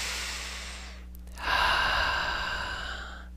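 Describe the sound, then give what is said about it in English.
A deep breath drawn during a guided reflective session: a soft, airy inhale swells in after a quiet stretch and holds steady before slowly fading, with no talking over it. “Nice deep breath.”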